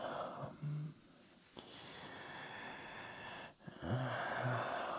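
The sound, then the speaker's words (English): A man groaning, with a few low, voiced groans separated by breathy, wheezing exhalations and sharp intakes of breath. A quieter stretch of breathing lies between the first groan and the louder final pair. “That groaning.”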